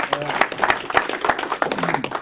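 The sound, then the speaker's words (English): Audience applause for a person who studied history, heard at a talk on the Constitution: many dense, quick claps blending into a steady patter that keeps an even level throughout. “Let's give him an applause.”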